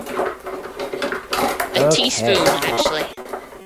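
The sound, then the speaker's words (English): Metal cutlery clinking and clattering as someone rummages through it for a tablespoon while cooking, with bright jangling and scraping, and a voice talking over it. “So let's find my tablespoon.”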